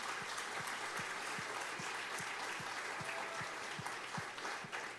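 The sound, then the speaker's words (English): Warm crowd applause for graduating seniors at a church service, a loud, continuous wash of clapping with a steady pulse of low thumps running through it. “Can we just give a huge hand for all of the seniors that are here this morning?”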